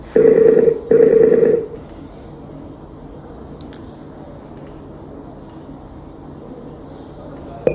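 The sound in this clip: Telephone tones as a call is dialed: two steady mid-pitched bursts, each under a second with a short gap between them, then a long stretch of faint low hum with a few soft clicks.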